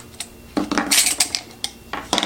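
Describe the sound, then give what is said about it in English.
Rattles and clinks come from a rubberized plastic utensil case as its lid is taken off, with metal utensils clattering inside. Many short, bright bursts follow one another irregularly, with no talking. “So you have the Zoku logo, just plastic. This is rubberized. All right, so I'm gonna take off the top here, this lid.”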